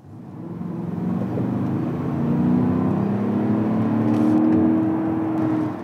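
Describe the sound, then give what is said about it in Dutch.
The new Audi SQ7 diesel car is driven, giving a steady, low engine drone that rises gently in pitch and holds at an even level throughout, with no speech. “We gaan rijden. De rijimpressie. Ja, en diesel is nog lang niet uit de gratie bij eh, Audi. Ik weet niet hoe lang dat nog gaat duren. Maar goed, voorlopig hebben ze nog de nieuwe SQ7.”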